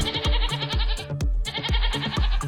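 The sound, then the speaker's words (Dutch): Goats bleating in Gelderland, in the Netherlands: loud nasal bleats with a quavering tremolo, many in quick succession and overlapping, with no talk over them. “Dit geluid zou je minder vaak moeten horen in Gelderland, omdat daar een geitenstop is. Toch zijn er de afgelopen jaren flink meer geiten bijgekomen.”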